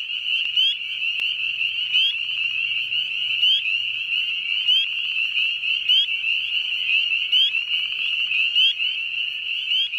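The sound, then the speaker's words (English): Spring peeper frogs singing in a dense chorus, a continuous high-pitched ringing of overlapping peeps with brief sharper chirps at intervals, steady and alone without voices. “But also spring peepers should start peeping as soon as the weather warms a little bit. And if they're singing, you can hear them.”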